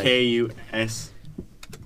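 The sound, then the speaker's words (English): Typing on a computer keyboard, a brief scatter of quick, light key clicks after a person speaks. “type in a big word”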